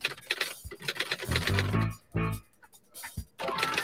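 A typewriter sound effect clatters in quick, uneven bursts of mechanical clicks and knocks, broken by short pauses, with a few low tonal thumps mixed in.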